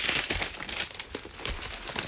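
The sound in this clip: Paper rustling as newspaper pages are turned to reach page 17: continuous crinkling with a few louder flaps of the sheets.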